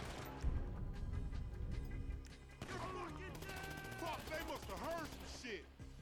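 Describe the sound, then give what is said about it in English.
Gunfire from a Tech 9 in a video game: a few sharp, loud shots near the start, followed by busy game sounds with voice-like tones in the second half. “Okay, so I put two bullets into this dude,”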